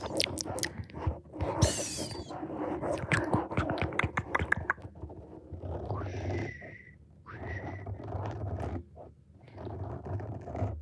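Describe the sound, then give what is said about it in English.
Potato chips being eaten ASMR style: many sharp, crisp crunches and chews packed into the first half, then quieter, softer mouth sounds. “Ah, we can do them. ASMR. Chips.”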